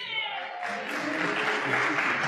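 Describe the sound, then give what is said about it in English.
Applause from the audience at a library association conference as officials on the platform are introduced. A voice is heard briefly at the start, then even, sustained clapping from many hands continues throughout. “Yes, we should applaud Barbara.”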